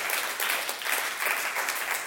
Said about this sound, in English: It's a good place to clap properly for the Lord.